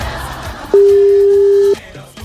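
A telephone tone sounds as a call is being placed: one steady, pure beep lasting about a second, starting and stopping abruptly, loud over faint background noise.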